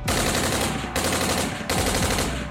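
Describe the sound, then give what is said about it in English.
Rapid machine-gun gunfire in a barrage of bullets, loud and dense, in three sustained bursts split by very short gaps, with no talking. “complimented the man's power with a barrage of bullets”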